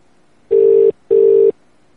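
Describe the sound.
Ringback tone on an outgoing telephone call: two steady, even rings of a single pitch, each just under half a second long and separated by a short pause, heard alone on a quiet line.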